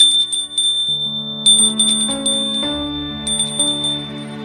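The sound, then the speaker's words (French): A doorbell rings at a presbytery door, with bright, sustained chiming tones that step to new pitches several times. A high ringing overtone runs throughout, with no voices. “lendemain matin, l'on sonne au presbytère.”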